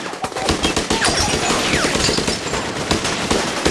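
Dense gunfire from a film being watched: many rapid shots in loud, continuous bursts, with sharp cracks layered over a constant rattle.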